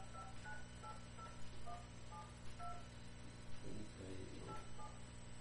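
Telephone dialing tones: a quiet series of short touch-tone beeps, evenly spaced at first and then more irregular, sounding alone over faint background hiss.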